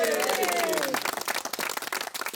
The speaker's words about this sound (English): You have the most fabulous hospital, so give yourselves a huge round of applause.